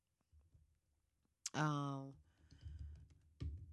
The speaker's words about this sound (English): Sorry, I gotta look it up real quick. I just realized I type hard as hell.